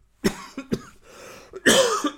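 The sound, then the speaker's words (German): A coughing fit from one person: a run of harsh, bursting coughs, three sharp ones, then a rougher, longer hack, loud and alone with no talk. “Gleich mal schön Hustenanfall deswegen.”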